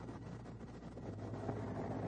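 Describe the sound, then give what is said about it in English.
A WWII-era airplane with an 85 to 90 horsepower engine taxiing, heard as a faint, even, low engine rumble that holds steady through the brief moment. “Remember, this thing has about as much power as the average MG today. It's about 85 to 90 horsepower. And now they're taxiing it.”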